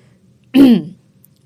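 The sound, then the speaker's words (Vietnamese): A young man clears his throat once with a fist held to his mouth, a short, loud, raspy burst lasting under half a second that stands alone against near silence. “Nắm tay để trên miệng che giấu nụ cười hứng thú, cậu hắng giọng, bất chước kẻ phía sau rồi nói.”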